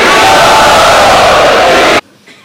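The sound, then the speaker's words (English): A large crowd loudly chants together to welcome a speaker at a devotional gathering, a dense roar of many voices held for about two seconds before it abruptly drops to near silence. “So let us welcome him by loudly chanting.”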